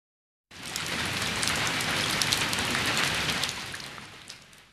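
Steady rain sets in abruptly after a brief silence, a dense, even hiss of drops on a surface that holds for about four seconds and eases slightly toward the end.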